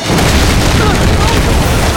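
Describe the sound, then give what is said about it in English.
Explosion sound effect from an audio drama: a loud, continuous roaring boom that fills the whole stretch at steady intensity, with no spoken words. “The suddenness of the explosion smashed her down with terrific force, knocking her instantly unconscious”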